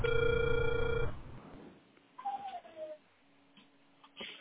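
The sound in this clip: A telephone line gives a steady ringing tone that sounds once for about a second, then cuts off into faint, hissy line noise with a few soft blips.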